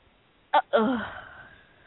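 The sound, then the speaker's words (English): A single sneeze: a short, sharp catch of breath, then a longer breathy burst that trails away, fairly faint and alone. “Sorry, I had to sneeze.”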